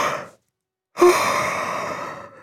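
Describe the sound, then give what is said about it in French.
A long, breathy yawn rises sharply and then trails off over about a second and a half. It follows a short breath and a brief pause, with no talking. “Tu entends? Tout doux, mon doudou, bâille. Il bâille à s'en décrocher la mâchoire.”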